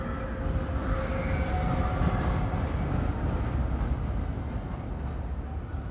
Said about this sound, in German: Nein! Nein, schrie ich in den Lärm der vorüberfahrenden Straßenbahn.